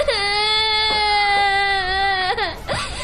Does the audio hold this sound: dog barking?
no